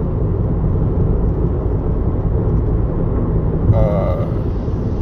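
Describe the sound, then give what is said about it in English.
A motorcycle riding past makes a continuous low engine rumble beneath a man's ongoing speech, staying fairly even in loudness across the few seconds. “sorry, a motorcycle is riding like an asshole.”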